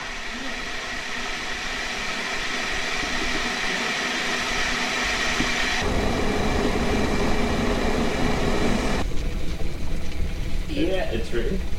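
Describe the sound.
Water boiling for black coffee: a steady, rushing hiss and rumble that grows louder after about six seconds and then keeps churning to the end.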